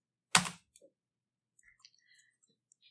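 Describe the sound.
Computer keyboard typing: one sharp, loud keystroke, then several faint, scattered clicks of keys in an uneven rhythm, with no talk.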